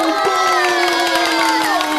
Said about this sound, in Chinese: 布布蚂蚁同学，大家鼓掌鼓励鼓励！